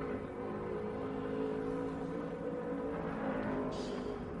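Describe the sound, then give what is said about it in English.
Engine of an IMSA race car pushing through the first sector on a qualifying pole lap, a steady, dense mechanical drone that holds at a fairly even pitch throughout, with no voices. “Hawksworth trying to add to that with another pole run here, and he's got a pretty good lap going through Sector 1.”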